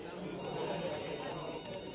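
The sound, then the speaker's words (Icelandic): A telephone rings in the offices of a personal-injury law firm in Billings, Montana: a steady, high, continuous ringing tone over a dense wash of background noise. “Það stoppar ekki síminn á skrifstofum Reciprocity Industries í borginni Billings í Montana í Bandaríkjunum.”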